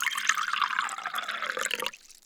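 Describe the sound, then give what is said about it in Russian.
Water pours into a glass, the third one filled during a children's chemistry demonstration with color indicators. A steady splashing trickle runs for about two seconds, then stops abruptly and leaves near silence. “Я наполняю водой третий стакан.”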